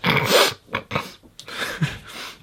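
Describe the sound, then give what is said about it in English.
A voice imitates breathing through a half-blocked nose, producing several short, snuffly nasal inhales and exhales in an uneven rhythm with brief gaps between them. “shallow, deep, fast inhales, you know, anxious breaths. Would you like half blocked nose?”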